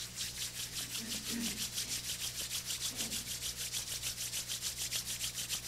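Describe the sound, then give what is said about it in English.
Palms of the hands rub briskly together, making many quick, rhythmic, hissing swishes in a steady back-and-forth pattern, faint and even throughout. “Open the palms. Fold your palms. And rub the palms.”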